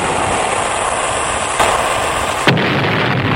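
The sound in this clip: Sound effect of a weapon fired at a ship: a continuous roaring rumble broken by a muffled thump, then a sharper blast, after which the noise settles lower.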